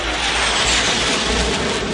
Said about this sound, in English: Overhead, jet fighters streak through the air with spectacular aerobatics.